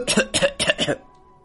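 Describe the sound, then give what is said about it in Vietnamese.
Four rapid, dry coughs come in a quick harsh series, each a short rasping burst, followed by silence. The coughs appear to be voiced by a narrator. “cũng ho khan không dứt”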